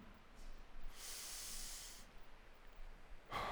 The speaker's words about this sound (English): Let's finish with three more deep breaths.